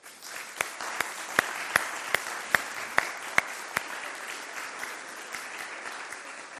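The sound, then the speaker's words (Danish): An audience at a scout jubilee applauds scouts receiving awards. Sharp, evenly spaced accented claps ring out over a bed of general applause, then thin out as the clapping fades in the second half. “Giv dem en stor hånd.”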